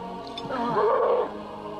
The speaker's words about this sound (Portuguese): Ou é um urso polar, ou é o maior cachorro que eu já vi. É um cachorro, pai.